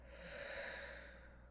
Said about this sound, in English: One last big deep breath in through the nose and out.